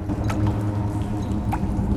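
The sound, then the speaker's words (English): Water drips land on still water, giving a few soft, pitched plinks that stand out over a low, steady hum. “Ripples spread out as drips land on still water.”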